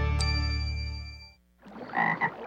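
Frogs croak loudly: a sustained, droning chorus fades out, then a burst of rough, raspy croaks follows, with no voices.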